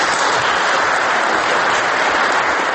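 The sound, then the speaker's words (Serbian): Dense, steady applause from a political assembly fills the whole stretch, loud and unbroken, with no voices standing out. “Aplauz bez glasa protiv ili prigovora”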